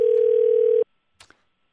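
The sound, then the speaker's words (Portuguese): A telephone ringing tone while calling someone: one steady, mid-pitched beep holds for under a second and then cuts off abruptly, followed after a short silence by two faint clicks. “Atenda, António. Somos nós a ligar.”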